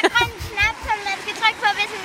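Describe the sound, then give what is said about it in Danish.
Water rushes down a water slide at a swimming pool with a large pool and a warm medium pool, a continuous splashing wash beneath lively voices that rise and fall throughout. “Nej, se, nu kom der også vand i vandrutsjebanen.”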